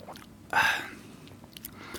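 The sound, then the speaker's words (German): A sip from a bottle of after-work beer: one short, wet slurp bursts out around the middle, followed by faint mouth and swallowing noises. “Ich nehme jetzt aber kurz einen, einen Schluck aus dem Feierabendbier.”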